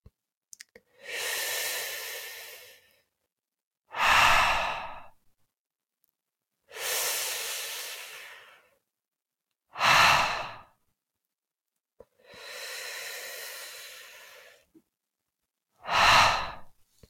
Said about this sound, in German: Atme tief ein und atme fast ohne Ton mit dem Laut Ha aus.